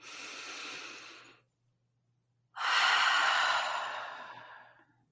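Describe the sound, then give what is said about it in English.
Deep breathing in through the nose and out through the mouth: a long, airy inhale, a brief silent pause, then a louder, longer exhale that slowly fades out. “Taking a deep breath in through the nose and releasing through the mouth. just doing a few more breaths like that in through the nose.”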